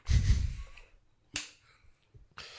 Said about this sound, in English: You're not good with the claps. Mate, they're really soft claps, aren't they?